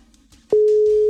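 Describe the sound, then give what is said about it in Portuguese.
A telephone ringback tone sounds while a call is placed: one loud, steady, pure tone starts about halfway through after a brief faint rustle and holds unbroken to the end. “Espera aí, agora vai. Ó. Primeiro toque, Jonas”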